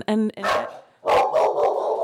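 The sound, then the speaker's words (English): A dog barks at a squirrel outside a window: a few sharp, excited barks and yips in quick bursts, with short gaps between them. “that's my dog delighting in a squirrel. That's right. Out the that's window.”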